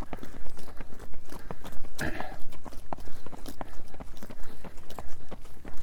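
Running footsteps from a group run pound in a steady, rapid rhythm of many repeated thuds throughout.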